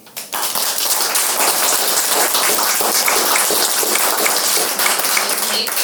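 A live comedy show audience claps to vote for a film pitch. Dense, rain-like applause starts abruptly after a brief moment and holds at a steady, fairly loud level to the end.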